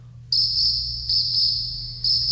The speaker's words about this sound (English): I always had to hit the crickets button.